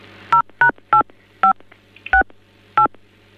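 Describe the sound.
Telephone keypad tones sound as a call is transferred to another extension: six crisp two-note touch-tone beeps, each a different pitch pair, at irregular intervals over a low steady hum.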